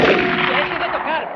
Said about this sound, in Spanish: El artificiero hindú aparece por el boquete abierto en la pared y dispara al aire.